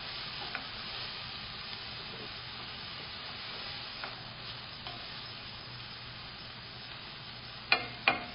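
Onions cooking with salt sizzle in a pan with a faint, steady hiss. A few light pops and clicks stand out near the end.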